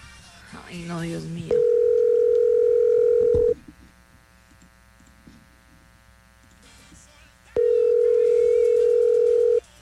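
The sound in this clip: Telephone ringback tone of a call that goes unanswered: two long, steady, mid-pitched rings about four seconds apart. A voice speaks briefly before the first ring, and faint background noise fills the gap.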